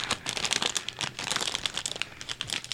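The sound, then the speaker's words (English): Cardboard cereal box being opened: many dense, rapid crinkling and crackling bursts with some tearing, running continuously and fairly loud, with no talk. “So, I am now going to open the box. You can hear it.”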